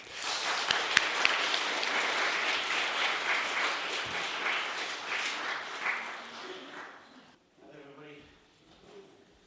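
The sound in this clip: An audience claps to welcome a speaker to the stage at the Smoke Farm Symposium. A few sharp claps stand out of the dense applause, which tapers off after about seven seconds before a voice begins talking.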